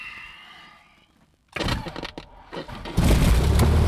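A light aircraft engine accelerating after start-up: after a quiet opening, rough engine noise bursts in, then steps up to a louder, heavier roar near the end.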